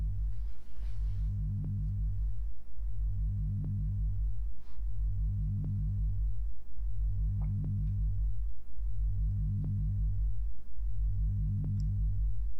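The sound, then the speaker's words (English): Synthesized bipresence sound effect: six low, throbbing swells that rise and fall at a regular two-second pulse, each marked by a short high ping, all played quietly with no voices. “Now let's test out a sound effect called bipresence.”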